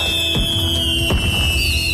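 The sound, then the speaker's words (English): Fireworks burst at a free family festival event at night, with a loud, high whistle that slowly drops in pitch and two sharp bangs with crackling under it. “Dazzling fireworks in the night.”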